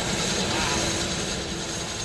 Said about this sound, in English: returns to the helicopter, and jumps in.